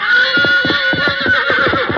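A fiery, unbroken three-year-old stallion whinnies in one long, loud call. The call carries a rapid, shaking quiver of pulses and keeps a high, strained tone from start to end.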